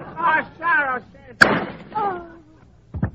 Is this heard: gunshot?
yes